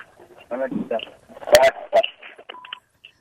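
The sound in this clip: Telephone keypad tones sound as a caller comes in to a call-in radio show. The short electronic beeps arrive briefly near the end, after a stretch of talk.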